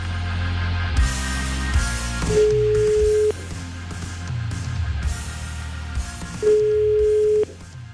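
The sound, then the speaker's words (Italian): A telephone call rings out with two long, steady ring tones separated by a pause. They sound against a busier background bed that drops and returns around each tone. “Chiamiamo il pastore Luigi Carollo.”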